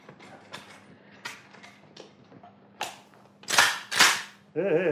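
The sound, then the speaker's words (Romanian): An old bear-hunting carbine being loaded and fired: a few dry mechanical clicks and creaks, then loud, sharp bursts of gunfire, ending in a wavering tonal sound. “Ia-o, încarc-o și fă-te că tragi. E o armă pentru urși. Cea mai bună carabină pe care am avut-o vreodată.”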